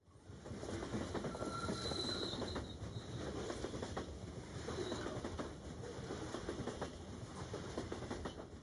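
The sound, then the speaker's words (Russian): Steady rumble and rattle of a steam train's cold, drafty railway carriage as the train gains speed, with a faint high wheel squeal early on above the continuous loud rolling noise. “Поезд набрал ход.”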